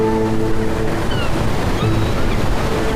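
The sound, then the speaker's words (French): Sea waves breaking on the shore between the Mediterranean and the Atlantic, a steady, unbroken wash of surf with wind noise, loud and even throughout, with no talk. “Ici, on aime se poser face à la mer et regarder au loin.”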